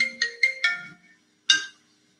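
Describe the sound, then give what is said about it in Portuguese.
A mobile phone ringtone plays a quick run of four short electronic melodic tones, then a brief pause and one more tone, all fairly soft and alone. “Aí dá uma cortada porque as pessoas estão tentando me ligar no meu o celular.”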